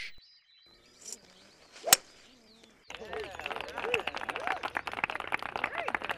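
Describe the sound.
A golf club hits a ball out of a sand bunker with one sharp, bright crack in the quiet first half. A dense, busy patter of sound then takes over and continues to the end.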